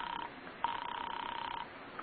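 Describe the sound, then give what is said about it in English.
A telephone rings at an apartment with a faint, warbling electronic buzz: one short burst, then a longer ring of about a second, and the start of another at the end. “There's no answer. Then you ring his apartment.”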